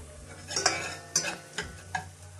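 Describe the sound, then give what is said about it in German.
Stirring a lukewarm mixture of half milk and half stock in a pot, with four distinct scraping clinks of the utensil against the vessel, spaced irregularly over a quiet background. “Das Ganze schon mal mischen, ungefähr”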